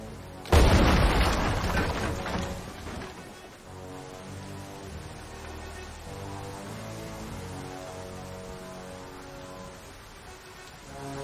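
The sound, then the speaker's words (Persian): A single loud explosion from a detonated charge bursts near the start, then trails off into a long, decaying rumble that settles into a steady low drone. “آماده؟ منفجرش کن.”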